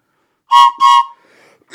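Two loud, short coughs from someone with a head cold, each a voiced, slightly tonal burst in quick succession, followed by a faint breathy trail before silence.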